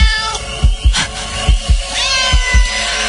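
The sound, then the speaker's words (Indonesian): A cat meows several times in loud, pitched cries over a constant background, with pairs of dull low thumps recurring between them. “terdengar seperti suara kucing. Mendengar itu, fokusku pun teralihkan karena ternyata itu hanya suara kucing.”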